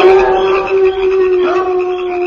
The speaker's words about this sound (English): I say, will all those prairie dogs never stop howling? They're always howling.